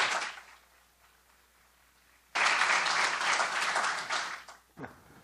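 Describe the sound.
Audience applauding a speaker at a university lecture: a faint tail of clapping dies away into near quiet, then loud, dense applause breaks out and holds for a couple of seconds before stopping abruptly.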